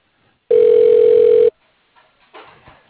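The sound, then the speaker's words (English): A telephone tone sounds as a call is transferred to voicemail: one loud, steady pitch lasting about a second, followed by a few faint low sounds. “No, I can transfer to the controller's voicemail.”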